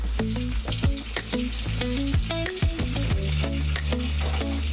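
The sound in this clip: Fermented sour fish fries whole, still wrapped in banana leaf, in hot oil. A steady, busy sizzle runs throughout, dotted with many sharp crackles and pops.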